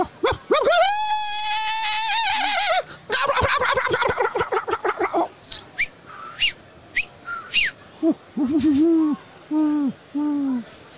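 Turkey gobbling: a loud, long wavering call runs into a rapid rattling gobble, then a series of short, separate hooting calls with gaps between them.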